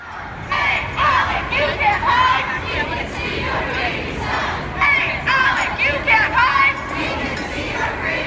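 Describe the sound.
Protesters outside an American Legislative Exchange Council meeting in Colorado chant in unison. Many voices shout short, rhythmic slogans in steady repeated bursts over crowd chatter.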